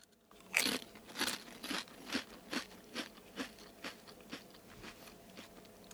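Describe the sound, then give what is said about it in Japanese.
Consommé-flavored potato chips crunch as they are chewed in a steady, even run of many crisp, crackling bites. The sound is faint, with no talking. “私まずあのポテチから頂いてるんですけどあのポテチのね”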